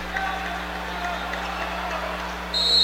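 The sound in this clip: A referee's whistle at a basketball game: one shrill, sustained blast starts near the end and rises clearly above a steady background din of the arena.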